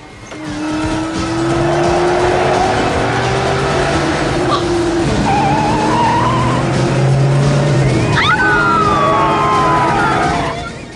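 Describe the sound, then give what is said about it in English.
Engines of a Porsche and a pursuing car roar steadily as both weave through traffic on a road at night, with tire squeals and a sharp high screech partway through, loud throughout and without talk. “Sully snakes through traffic in his Porsche looking weary and stressed. John chases him with eyes focused ahead.”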